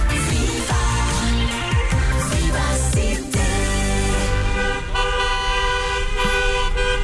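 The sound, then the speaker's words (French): Car horns honking in traffic: many overlapping toots and blasts sound loudly and continuously throughout, layered over a steady rumble of vehicle engines. “Ah ça, si on pouvait ne plus l'entendre, ce serait bien quand même, tous ces coups de klaxon.”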